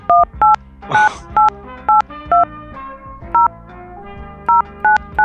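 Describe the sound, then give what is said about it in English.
Touch-tone DTMF beeps as a 10-digit phone number is keyed into an automated phone line: several short, clear dual-tone presses, irregularly spaced, with one brief noisy burst, over a steady low tonal background. “To have your call completed, please enter your 10-digit phone number after the tone.”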